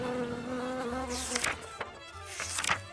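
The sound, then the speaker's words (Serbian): Bees buzzing around plum trees in blossom: a wavering, tonal drone that carries a few brief, faint clicks and rustles. “Cvetanju šljiva najviše se raduju pčele. Svojim bojama i oblikom cvetovi privlače ove insekte.”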